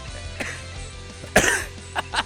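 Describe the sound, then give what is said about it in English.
A lingering cough from someone still recovering: a few short, rough bursts, with one louder and fuller than the rest, separated by quiet gaps. “the cough is still here a little bit.”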